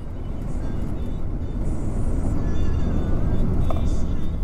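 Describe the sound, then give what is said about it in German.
Interior drone of a taxi driving through hilly countryside toward a small village, a constant low road and engine rumble without pauses, with faint higher tones drifting above it. “Wir fahren mit einem Taxi durch eine hügelige Landschaft nach Nabisale”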